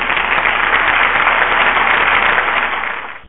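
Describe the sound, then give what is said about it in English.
A soul clap from an audience: dense, steady clapping with no voices, staying loud throughout before tailing off and cutting out at the end. “Can I get a soul clap for that? I think I can get a soul clap for that.”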